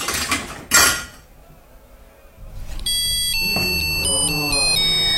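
Metal clanking as a guillotine machine is repaired with a screwdriver and nuts. A few light knocks lead to one sharp, loud clank, then quiet, then bright electronic tones play a steady, melody-like sequence.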